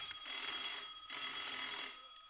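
A telephone rings in two long, shrill, buzzing bursts with a brief gap between them. The pitch is steady and the level moderate, with no voices over it.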